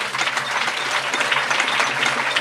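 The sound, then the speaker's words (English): Loud audience applause for guests on stage at a live show, thick, sustained clapping that stays level for the whole stretch. “Can we say a huge round of applause and thank you to Tina and all of the fracking nanas.”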